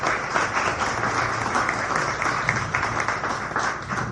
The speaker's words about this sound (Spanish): Entonces, un aplauso para Humberto.